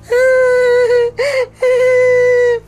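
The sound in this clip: A girl starts to cry with two long, drawn-out wailing whimpers broken by a short sobbing catch between them.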